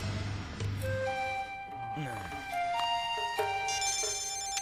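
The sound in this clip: Telephone ringtone announcing an incoming call: a melody of bright electronic tones that step up and down in pitch, playing over a busy background of other sound.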